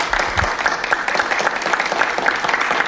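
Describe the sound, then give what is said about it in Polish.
A live audience applauds: loud, dense clapping that stays steady and full for about three seconds without letting up. “Też proszę o brawa.”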